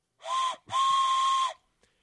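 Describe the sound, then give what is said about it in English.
A train whistle with a steam-style tone sounds two blasts, a short one and then a longer sustained one. Both are loud and steady in pitch, with a bright, chord-like tone, and nothing else is heard. “Air Force, you deserve the off-the-rail train whistle of the evening.”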